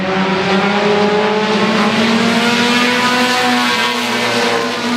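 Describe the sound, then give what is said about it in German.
Race car engines roar at a short-track auto race in North Carolina, a loud, continuous droning growl with steady harmonic tones and no pauses. “Autorennen sind tatsächlich sehr beliebt in North Carolina und auch so eine Art kulturelles Aushängeschild des Bundesstaats, kann man sagen, oder? Ja, wir waren da auf einer Kurzrennstrecke.”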